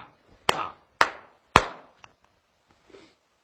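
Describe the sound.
Heavy knocking bangs on a door: three loud, sharp blows at an even pace, each with a short ringing tail, then a couple of much fainter taps.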